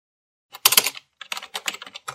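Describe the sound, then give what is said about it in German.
A woman typing on a computer keyboard produces clicking keystrokes: a dense flurry of clicks first, then a pause, then several shorter clusters of taps, with no talk. “Sie tippte.”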